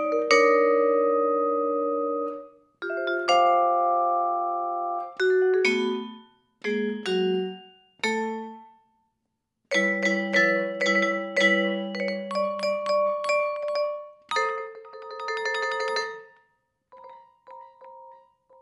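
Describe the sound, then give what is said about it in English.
A vibraphone played with the sustain pedal: struck chords ring out long and are then damped between phrases, building to a quick tremolo flurry and ending with a couple of soft, lingering notes. “So I can play the vibraphone a couple different ways, and this makes it a very lyrical and expressive instrument because you're using your feet like on a piano to control the sustain of the note.”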